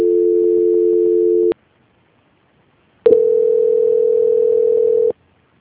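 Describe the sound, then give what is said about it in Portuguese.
A telephone call transfer tone sounds while a bank call is put through to another department: two long, steady, mid-pitched tones of about one and a half and two seconds, separated by a silent gap. “Transferência.”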